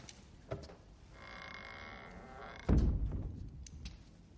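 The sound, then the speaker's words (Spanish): A door being closed in a film scene: a faint early click, then a single dull, low thud that fades out over quiet background ambience. No one speaks. “cierra la puerta”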